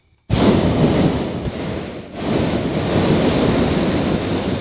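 A hot air balloon's propane burner roars during a morning launch. A loud, broad whoosh starts abruptly, dips briefly midway, then resumes as a steady blast.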